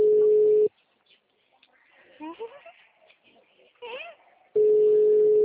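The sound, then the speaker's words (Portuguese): A telephone ringing tone plays while a call is placed to a local health clinic. The steady mid-pitched tone sounds at the start and again near the end, with soft voices and chirpy sounds filling the gap between. “Tô ligando no postinho, ver se...”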